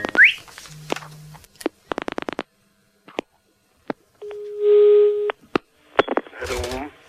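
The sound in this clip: Telephone tones while a call is placed: scattered clicks, a run of rapid dialing pulses, a low and then a higher steady tone, with a brief voice near the end.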